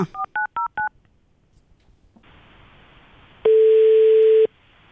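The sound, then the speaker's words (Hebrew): Telephone dialing with four quick DTMF keypad beeps, then a soft hiss of line noise and a single steady tone that lasts about a second before the hiss returns. “ואנחנו הולכים לדבר איתה עכשיו בטלפון. בואו נתקשר אליה.”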